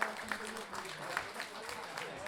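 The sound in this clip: Audience applause for guitarist musicians at a national guitar festival, a moderate ripple of clapping mixed with voices.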